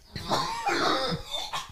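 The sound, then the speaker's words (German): Coughing from one person: a short series of harsh, breathy bursts, one drawn-out cough in the middle and brief hacks before and after, fairly loud with no talk over it. “Ja, Husten.”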